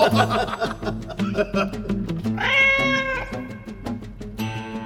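A cartoon cat, Tom, meows in a video. One long, drawn-out meow comes midway and a shorter one near the end, set against busy percussive background sounds.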